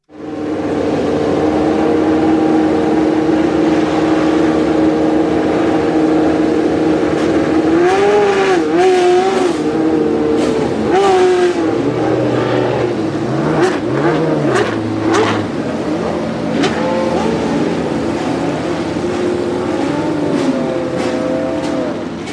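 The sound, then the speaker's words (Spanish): March 881 racing car with a 3.5-litre Judd V8 engine, a loud, sustained engine howl whose pitch sweeps up and down repeatedly as the throttle is worked, with sharper revving bursts in the middle. “vamos a ver cómo sonaba este March 881. Con el motor de 3,5 litros de Jude.”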